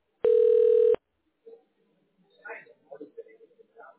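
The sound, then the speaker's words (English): A telephone call being transferred produces one steady, buzzy ringing tone lasting under a second, followed by a person speaking. “Please stay on the line while your call is transferred to the operator.”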